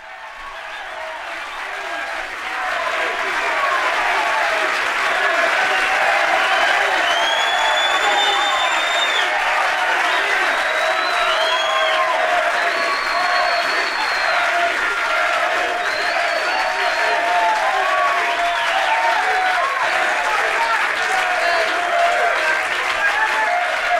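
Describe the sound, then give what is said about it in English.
Loud, sustained applause from a comedy-show audience: dense, steady clapping that swells quickly at the start and holds for the whole stretch, with some cheering mixed in and no clear voice on top. “Y'all out there clapping your ass off.”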